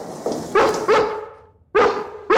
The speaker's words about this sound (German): Das Bellen von einem Hund, aber genau so tönt es immer wieder im Gefängnis in Lenzburg im Aargau